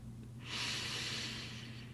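A long, slow exhalation during a guided breathing exercise: a soft, breathy hiss of about one and a half seconds, fairly quiet, over a low steady hum.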